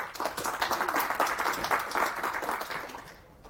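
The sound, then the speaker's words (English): Audience applause welcoming a speaker to the first talk of a software-defined storage developer session: many hands clapping in a dense, even patter that slowly fades toward the end. “Put your hands together for Preeta and enjoy.”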